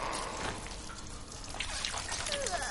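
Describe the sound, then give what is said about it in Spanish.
Viscous fluid dripping and pouring down from above onto a person, a continuous wet trickle with scattered heavier drips and splats, steady in loudness without any talk. “Un líquido cae sobre ella y Ana se toca la cabeza llena de fluido viscoso.”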